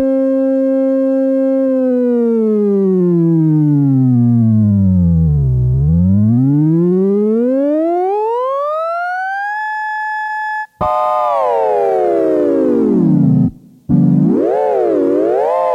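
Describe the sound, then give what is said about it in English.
A synthesizer keyboard's whole pitch is slid by a potentiometer: a loud, buzzy, harmonic-rich tone glides smoothly down to a deep low, sweeps back up and holds, then a second tone falls and wobbles after a brief cut. “Probably the biggest advantage is that you can slide the entire keyboard up and down and all the notes will stay relatively in tune. I'll just slide it up and down with a potentiometer. You can hear the effect.”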